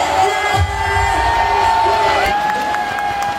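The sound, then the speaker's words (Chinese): Arena audience cheering and applauding at a charity-themed event with elderly participants: a continuous crowd roar with shouts and whoops over light clapping, staying loud and steady throughout. “帅了，掌声不要停。”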